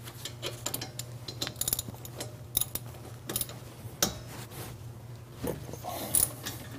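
A ratchet with a 12mm socket loosening the top bolt of a front two-piston brake caliper, with a 15mm socket on the lower bolt. Many irregular sharp clicks and metallic ticks sound over a low steady hum, with no talk.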